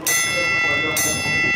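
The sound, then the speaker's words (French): A bell is struck twice, about a second apart. Each strike rings out as a bright, sustained metallic tone that carries on after the hit. “Deux fois la cloche. Deux fois aujourd'hui.”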